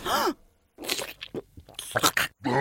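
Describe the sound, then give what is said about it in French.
A voice imitates a comic biting and devouring, with moaning growls, gnashing bursts and crunchy chomps broken by short pauses. “quel est ce bruit étrange ? Charles Pasqua vient de mordre Jacques Chirac à la jugulaire. Il est en train de le dévorer et...”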